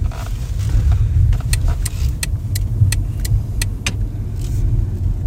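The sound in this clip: A car's low, steady engine rumble runs throughout as it drives along a residential street, with a regular series of sharp clicks in the middle of the stretch and no voices.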